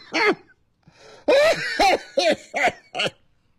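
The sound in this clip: A person coughs in a loud, harsh series: one opening cough, a pause, then a rapid run of hacking bursts with short gaps between them, heard alone without talk.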